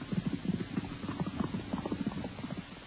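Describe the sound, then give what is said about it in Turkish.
Rapid hoofbeats of a horse galloping at full speed: a quick, steady clip-clop of many dull, low thuds in a driving rhythm that runs throughout, with no voices. “Kabe'ye doğru atını 4 dala koşturuyor.”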